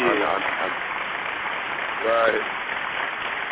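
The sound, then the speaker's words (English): Hand-clap sound effect during a hip-hop interview: dense, steady applause-like clapping runs at an even level throughout, with a brief faint tone or voice passing underneath. “Let me get a hand clap. You got the hand clap effect?”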